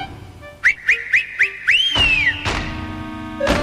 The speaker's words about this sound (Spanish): allí estaban, en el valle, cientos de llamas arreadas por el dios enano y su inconfundible silbido.